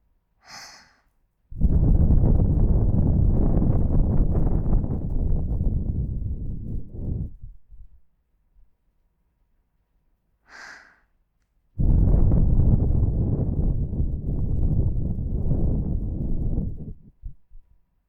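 Breath blown into the ear, two long, loud, airy blows of about five seconds each, each preceded by a brief sharp intake of breath and separated by near silence.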